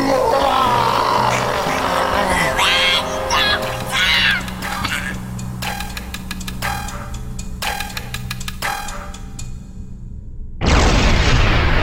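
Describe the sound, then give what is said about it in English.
An audio-drama spaceship explodes in loud rumbling blasts and crackling bursts. The din thins to a low rumble, then a sudden loud burst hits at the end. “I watched Vilgreth's ship explode on the scanner.”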